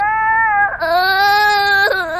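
A child cries in a long, high-pitched, sustained wail that catches briefly twice and then resumes. The crying stays loud throughout, with no talk over it.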